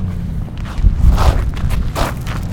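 Footsteps walk through Washington, D.C.'s Smithsonian Gardens in spring, a few soft steps over a low, rumbling outdoor background.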